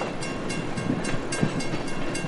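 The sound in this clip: A train passing as a sound effect: a steady, loud rumbling roar with regular clicking of wheels over rail joints throughout.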